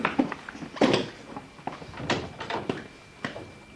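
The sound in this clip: A door being opened, heard as a few faint clunks, clicks and rattles from the latch and frame, spread over a few seconds with quiet gaps between them.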